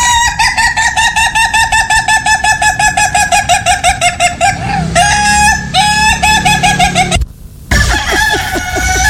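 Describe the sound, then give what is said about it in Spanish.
Chickens cluck in a long run of rapid, evenly spaced calls, followed by longer drawn-out crowing from a rooster. The calls are loud and repeat many times, with a brief silent gap near the end before the calls resume. “Pero yo diría que es una gallina filipina de esas.”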